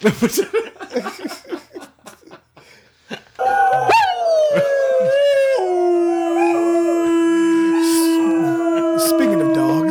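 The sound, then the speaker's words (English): Several dogs howl together in long, sustained, wavering tones that overlap and hold to the end, following a few seconds of choppy talk. “Speaking of dogs”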